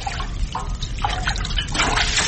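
Water sloshing as a large pot of boiling water is stirred, a steady wet churning with a few louder swirling surges and no voices.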